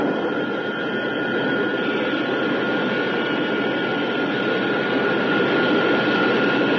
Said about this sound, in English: When the tail is pointing towards the landing platform, the retrojets will open. The jets are about to fire. Prepare for deacceleration.